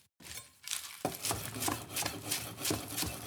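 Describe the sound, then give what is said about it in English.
A knife rough-chops fresh washed spinach and shallots in many quiet, rhythmic taps at an even pace, with no talking. “I've got some green onions, and I'm just gonna rough chop this spinach. It's sort of a rough chop on the shallots as well.”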